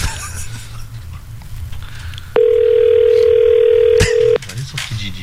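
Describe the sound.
A telephone ringing tone after dialing: one steady, fairly loud tone lasting about two seconds, surrounded by low background noise before and after.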